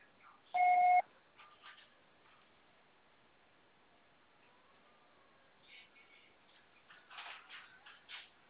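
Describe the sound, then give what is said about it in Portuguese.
An answering machine gives a single loud, steady beep tone. Faint, low rustling noises follow in the quiet that comes after it. “Você só será tarifado após o sinal.”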